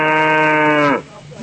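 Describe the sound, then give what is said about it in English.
A person imitates a cow mooing with one long, sustained, droning call held at a steady pitch. It ends in a downward slide, followed by a brief fainter trailing sound. “You want me to do the cows now? Of course. We can do the cows now.”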